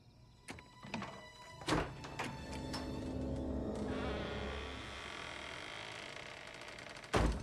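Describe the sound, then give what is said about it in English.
A door leading to a garage swings open by itself in a darkened house: a few sharp thumps and a drawn-out creaking groan, then a steady hiss and a final thud. “Inside, the door leading to the garage appears to swing open by itself.”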